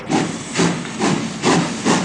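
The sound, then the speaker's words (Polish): Steam hissing from a train at a railway station comes in five strong, even bursts. They arrive in a steady rhythm, and no voices are heard. “Wspaniały jest ten pociąg. Dokąd nas dowiezie? My już wsiadamy.”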